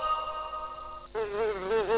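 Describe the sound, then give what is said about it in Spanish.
Flies buzzing, the pests targeted by a larval control treatment. A steady insect drone becomes louder and more wavering partway through, its pitch rising and dipping, with no voices. “Otra vez las moscas. ¿Hasta cuándo vamos a seguir con este problema?”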